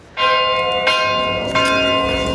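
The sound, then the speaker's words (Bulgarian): Cathedral church bells in Veliko Tarnovo ring out at noon with three loud, clear strokes. Each stroke leaves a bright, sustained metallic hum that overlaps the next. “Точно в 12 часа във Велико Търново камбанен звън от катедралния”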